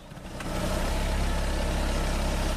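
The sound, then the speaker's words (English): A car's engine rumbles as it pulls up by a trailer beside a lake. It swells in level early on, then settles into a steady, low, idling drone with no voices. “A car drives up by his trailer and stops.”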